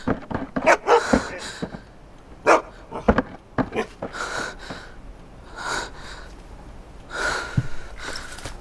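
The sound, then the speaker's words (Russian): A dog barks outside the closed door of a house, letting out many sharp, irregular barks in uneven bursts, with breathy snorts and panting between them. “Собака бежит за Леной, Лена открывает дверь, забегает, закрывает дверь. Собака лает у двери снаружи.”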